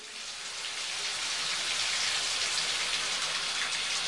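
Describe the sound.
A shower runs in a bathroom, making a steady, dense hiss of spraying water that swells slightly at the start and then holds even and moderately loud.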